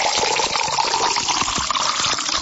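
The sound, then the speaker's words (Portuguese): Drinking water, spring water, being poured into a glass: a steady, fairly loud splashing trickle that runs without a break for the whole clip. “Vamos tomar mais um copo porque um só não dá, viu?”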